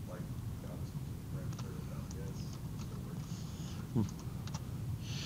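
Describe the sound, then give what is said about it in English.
Faint, irregular clicking of computer keyboard keys as code is typed into the ABAP editor, soft taps spread unevenly through a low, steady background hum. “So if we go to our ABAP editor and I just type in the code that you're looking at here.”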